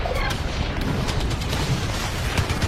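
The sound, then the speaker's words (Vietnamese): Artillery cannon fire in a battle where 105 mm and 155 mm guns are firing: a loud, continuous barrage of booms and sharp reports that blend into an unbroken rumble throughout. “cứ điểm Độc Lập rung chuyển trong tiếng ầm ầm của đại bác. Quân Pháp nổ súng chống cự quyết liệt bằng pháo 105 ly, 155 ly.”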